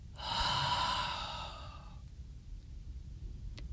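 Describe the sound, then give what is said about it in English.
A slow breath is let out through the mouth during a relaxation exercise: a soft, airy sigh of about two seconds, then near-silence with faint background hiss. “Breathe in through your nose, all the way down to your belly, and then breathe out through your mouth.”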